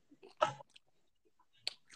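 Faint crunching of cheese sticks being chewed: a few short, crisp bites separated by quiet gaps.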